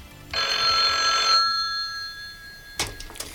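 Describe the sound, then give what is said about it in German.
A telephone rings once in a long, bright, trilling burst, then falls silent before a brief sharp clack. “Sein Anruf ließ nicht lange auf sich warten.”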